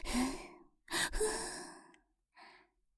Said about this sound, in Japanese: 目いっぱい息を吐くの。ほら、ふぅ、ふぅ、ありったけの息を吐きなさい。